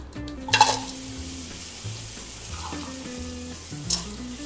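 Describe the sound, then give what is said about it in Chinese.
Oil sizzles in a hot pan as aromatics are fried, with a steady hiss and a few metallic scrapes of stirring near the start and again near the end. “好，让它热锅之后呢，我们稍微加一点点油，我们来。爆香油不用加太多，接下来我要来爆香。”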